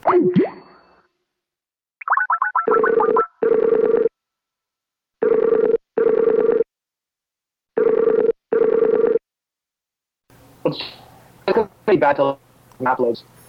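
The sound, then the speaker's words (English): Telephone ringing tones while calling someone back: after a short warbling tone, three pairs of steady electronic beeps sound with pauses between them. Brief voices are heard at the start and end. “Hang on. I'm going to call you right back.”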